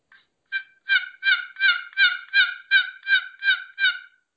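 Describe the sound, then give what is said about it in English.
Relaxed hen turkey calls worked on a wooden box call: about ten evenly spaced, raspy yelps with a steady, unhurried rhythm, fairly loud and heard alone after a faint short note. “my personal taste is to call and not call excited. I'm just kind of loafing calling. Yep. Kind of it'll sound kind of like this on a box,”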